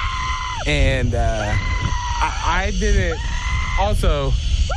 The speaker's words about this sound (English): I know I have a scream that can get me made fun of.